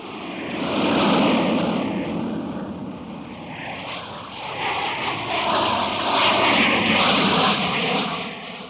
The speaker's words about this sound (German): Flugzeuge.